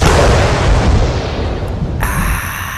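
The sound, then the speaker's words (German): A beer bottle being opened: a loud, dense rush of hissing, rumbling noise fills the whole clip without a break, with no voices. “Das war der Sound von meinem geöffneten Bier.”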